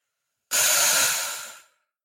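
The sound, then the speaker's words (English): A single long, breathy exhale during a guided belly-breathing exercise, starting abruptly as a loud rush of air and tapering off over about a second before stopping. “just take a breath in and just exhale everything out”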